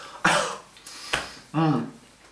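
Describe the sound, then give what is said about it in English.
Someone coughs after choking on a custard cream biscuit, giving two sharp, rough coughs followed by a longer, voiced throaty rasp. “I should have cleared my throat before. Before you choked on it.”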